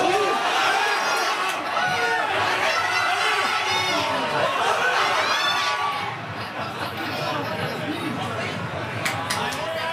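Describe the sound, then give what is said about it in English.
French football fans watching a match against Spain in a packed crêperie in Quebec City, their loud cheering and shouting mixed with dense crowd chatter that stays steady throughout. “The Billig was packed. French fans cheered loudly with every play, but as you can hear, their enthusiasm sort of stopping following goals from Mikael Oyarzabal and Pedro Porro”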